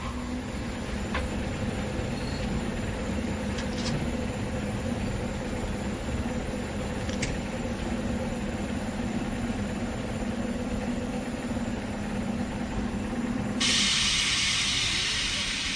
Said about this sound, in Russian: Забарба ловит такси и едет на железнодорожный вокзал